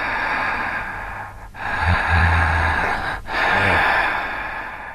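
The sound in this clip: Heavy breathing from a man, captured on a Panasonic tape recorder in a basement. A few long, rasping breath cycles with brief pauses between them sit over a constant, loud layer of tape hiss.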